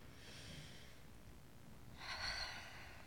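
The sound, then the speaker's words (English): Deep breathing in and out by people, faint and airy, with one soft breath near the start and a stronger one about two seconds in. “Close your eyes, please. And let's breathe deeply together. In and out.”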